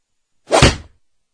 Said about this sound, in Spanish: Eugenio intenta tocar al soldado, pero este le golpea con el rifle.